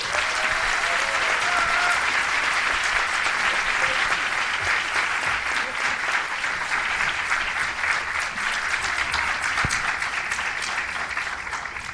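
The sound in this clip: Sustained audience applause welcoming Dr. Jill Biden onto a stage, a dense, even wash of clapping that holds steady at full strength for the whole stretch without any talk over it.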